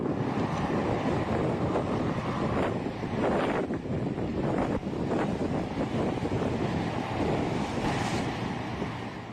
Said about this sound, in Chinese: 所以才会有沙尘暴这种现象发生。大家可以听听我录的声音。